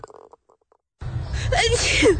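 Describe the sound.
A person sneezing: after faint brief vocal sounds and a pause, a loud, breathy, noisy burst builds for about a second and peaks at the very end.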